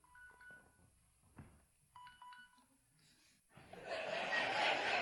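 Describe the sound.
A phone rings with an electronic ringtone: two short, faint bursts of bright beeping tones with a pause between them, followed by a rising swell of laughter.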